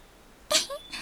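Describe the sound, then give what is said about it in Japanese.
A cat, apparently a black cat, gives a short meow in a video game. It comes after half a second of quiet and has two quick parts, followed by a fainter tail. “あれ、どこからか猫の鳴き声が。”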